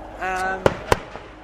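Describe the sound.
Fireworks exploding at a display, heard as two sharp, loud bangs in quick succession, followed by a much fainter third pop.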